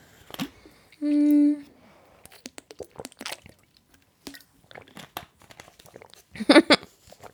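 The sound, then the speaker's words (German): A person takes a drink to rest a tiring voice: quiet sipping and swallowing, with soft wet clicks and squishy gulps scattered through the stretch. “Ich muss auch was dazwischen trinken, weil mir meine Stimme bald versagt.”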